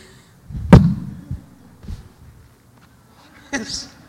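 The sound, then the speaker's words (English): A heavy thud as someone falls flat on their face after coming in through the back doors, followed by a couple of softer knocks and a later bump. “Nothing like opening the back doors, coming in, and falling flat on your face.”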